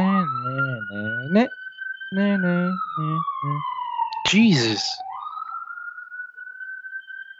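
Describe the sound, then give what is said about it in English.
A police car siren passes along a street in the Bronx: a long wailing tone that slowly rises, sinks lower, then climbs again and holds, sounding under and between people talking. “And I'm sorry about the sirens, by the way.”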